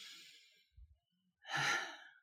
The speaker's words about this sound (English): take a big breath in through your nose and out through your mouth. Two more like that.